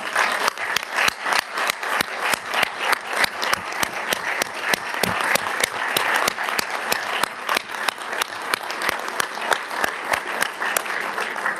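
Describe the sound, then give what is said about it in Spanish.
Audience applause at a regional summit, celebrating a country's return to the group. Dense, steady clapping continues at an even level for the whole stretch, with no voices over it. “quiero pedirles a todos un enorme aplauso para celebrar el retorno de Brasil a la CELAC.”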